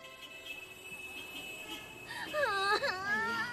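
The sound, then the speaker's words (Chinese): A child cries and whimpers with rising and falling wails over a steady high tone, getting louder toward the end. “行了行了，别哭了。”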